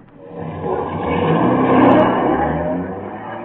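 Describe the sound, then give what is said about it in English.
A taxi engine driving and accelerating on a street in California: a steady, loud motor drone that swells in strength through the middle and then eases slightly, with no talk over it. “I'm at the wheel. I'm afraid of these California drivers.”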